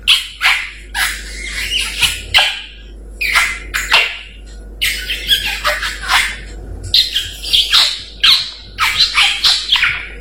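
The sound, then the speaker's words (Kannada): A parrot squawks in many loud, harsh, shrill bursts that come in quick, uneven clusters, some stacked close together, with brief pauses between the groups. “ದಾರಿಯಲ್ಲಿ ಹೋಗುವಾಗ ನನಗೆ ಒಂದು ಗಿಳಿ ನೋಡಿದೆ. ಆ ಗಿಳಿ ಈ ರೀತಿ ಕೂಗುತ್ತಿತ್ತು.”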